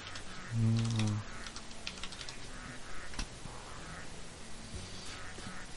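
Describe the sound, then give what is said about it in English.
Someone types a name on a computer keyboard in quick, faint, irregular key clicks, with a brief voice near the start. “I'll type the name.”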